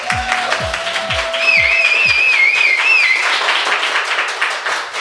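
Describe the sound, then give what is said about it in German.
Live audience applause in a pop-up store in Berlin, dense and steady clapping throughout. A few low falling tones sound early on, and a wavering whistle rises above the clapping in the middle. “ihr hört es schon im Hintergrund, wir sind im Y Pop-Up Store hier in Berlin”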